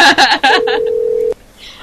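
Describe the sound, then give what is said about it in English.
A telephone tone sounds as a single steady, mid-pitched beep lasting under a second. A voice talks just before and over its start, and the line goes quiet after the tone cuts off. “I'll just let it keep ringing. I mean, I don't care. They're psychic. They probably know the phone's ringing even if they turn the ringer off.”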